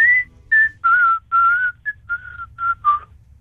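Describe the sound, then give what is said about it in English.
A whistled melody from a song: clear, pure tones in a lilting phrase of several sustained notes followed by shorter ones, loud and alone over a faint low background. “There's whistling in it. There's whistling in it.”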